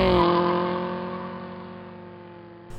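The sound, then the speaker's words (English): A car engine roars in an illegal street race on public roads, a steady, harmonic drone that slowly fades over about three seconds. “Street racing.”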